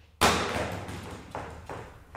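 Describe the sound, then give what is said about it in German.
A plastic, barrel-shaped retro LED solar lamp is dropped onto the floor. It lands with one sharp thud, then a few lighter knocks follow as it settles. “lässt eine Leuchte auf den Boden knallen.”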